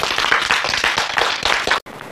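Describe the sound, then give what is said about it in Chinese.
Students in a school setting applaud for engineers with brisk, loud clapping, a dense run of sharp claps that stops abruptly near the end, leaving a quieter tail. “是不是要为我们的工程师鼓掌啊？”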